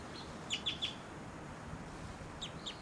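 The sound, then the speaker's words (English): A female wild bird gives short, high chirps: three in quick succession, then two more after a pause. The calls are faint over a soft, steady hiss. “That was a flight call error by that bird. Maybe, oh, this is the female actually.”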